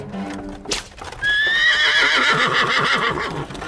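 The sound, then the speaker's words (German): A mare pulling a wagon whinnies loudly, with the rhythmic clip-clop of trotting hooves. “Er peitschte die Stute, die nach einem Satz zur Seite wieder in flotten Trab fiel.”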